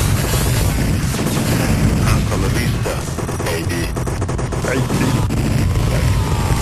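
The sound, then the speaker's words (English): Gunfire from a Terminator 2 arcade shooting video game: a dense, continuous barrage of loud shots and crashing impacts that keeps up at the same level from start to finish. “All right, you got a lot of shooting. You got Arnold's real voice. That is a line from Terminator 2.”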